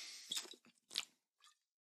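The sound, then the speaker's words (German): A small sip of a drink comes as three soft, short slurping bursts in quick succession, with the last one faintest, followed by quiet. “Moment, kleinen Schluck.”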